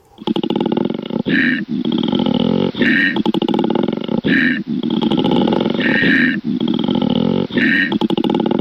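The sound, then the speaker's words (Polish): A koala bellows in a deep, rasping, snore-like grunting roar. It is loud and almost continuous, broken by short gasping pauses about every one to one and a half seconds. No voices are heard. “No to powiem tak, to jest miś, który nie jest misiem. Koala. No tak, koala.”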